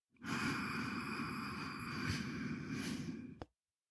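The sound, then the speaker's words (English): A slow, deep inhale through the nose with the lips sealed, demonstrated as a breathing exercise: one steady, airy breath lasting about three seconds that cuts off abruptly. “that's the style of inhale we're looking for, only you would be doing it with your lips sealed shut. So it would sound something like this.”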